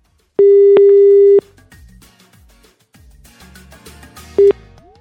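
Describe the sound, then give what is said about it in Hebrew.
Ringback tone as a radio host dials a listener from the studio: one steady one-second tone, then a soft music bed, and a brief start of the next ring about three seconds later. “ואנחנו עכשיו נערוך את ההגרלה ובוא נראה למי מחייגים מתוך המזינים שעלו לשידור”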